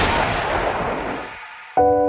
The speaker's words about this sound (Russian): Немцы вели огонь, не разбирая, военные это или гражданские.